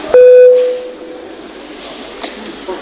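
An electronic beep signals voting mode in a parliament chamber's electronic voting system: one loud, steady mid-pitched tone lasting about half a second, then low background noise.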